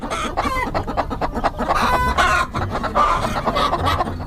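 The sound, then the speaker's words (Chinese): Many black-bone chickens cluck and squawk inside a crowded coop at night while they are being caught. The loud flock chatter runs without a break, with sharp calls scattered throughout. “抓鸡是吗？ 是是是。 就是为什么非得在晚上，而且在鸡舍里面抓呀？”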